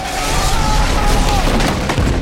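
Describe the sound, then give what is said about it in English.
Gunfire in an action film scene as two characters open fire on a terracotta-skinned foe: a loud, dense barrage of overlapping shots and booms that continues without a break. “Evelyn and Rick open fire.”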